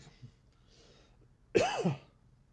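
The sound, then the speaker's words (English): Someone clears their throat once with a harsh, rasping burst lasting under half a second, set against a near-silent background with only faint breathy sounds before it. “Oh, something in the throat. Gotta cut that out.”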